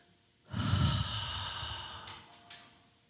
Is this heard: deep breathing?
yes